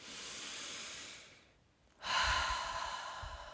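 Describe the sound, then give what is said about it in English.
A deep breath, alone: a long soft inhale that fades, a short pause, then a fuller, louder airy exhale with a slightly breathy rasp. “It starts with a deep, deep, deep breath.”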